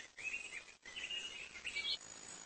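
Faint high, thin chirps from a large-billed toucan with a 15 cm beak run almost continuously, with one short break and a brighter flurry of notes near the end.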